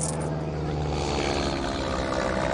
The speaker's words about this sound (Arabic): طيارة، لك طيارة، احتموا لك اهربوا.